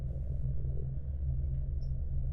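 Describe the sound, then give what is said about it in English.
A subway train car rumbles with a loud, steady, low-pitched drone throughout as it moves through a turn. “The train car screeches as it makes a turn.”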